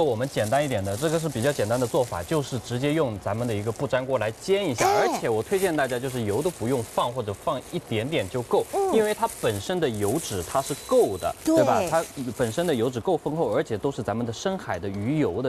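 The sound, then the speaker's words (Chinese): Sizzling of a thick-cut Atlantic salmon steak with skin, pan-frying in a nonstick pan with little or no oil, a steady bright hiss running beneath continuous talking. “这个是比较简单的做法，就是直接用咱们的一个不粘锅来煎一下，而且我推荐大家就是油都不用放或者放一点点就够，因为它本身的油脂它是够的”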